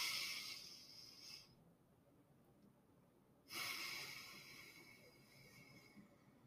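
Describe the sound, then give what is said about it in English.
Slow, paced breathing from a relaxation exercise: a soft, airy inhale, a quiet pause, then a longer, gentle exhale, all faint. “it's just a matter of taking it in for 4 and letting it out for 6. So something like this”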